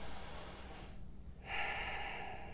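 A single deep inhale, taken during a guided prayer in a church service, rises softly after a brief lull and stays faint over a low background hum.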